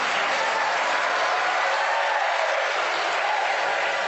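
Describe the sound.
Audience applause at a talk about teaching and schools, a dense, even clatter of many clapping hands that holds steady for the full four seconds.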